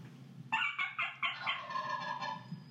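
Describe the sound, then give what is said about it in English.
A wild turkey gobbles in a rapid burst of throaty, warbling pulses that blur into a trailing rattle. The gobble is fairly faint over a low steady rumble. “You're gonna scare the turkey. Listen. Hear that gobble?”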